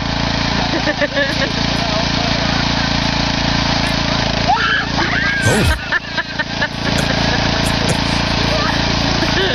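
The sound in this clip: A ride-on lawn mower's engine runs after starting, giving a steady, loud droning hum throughout, with brief voice-like sounds around the middle.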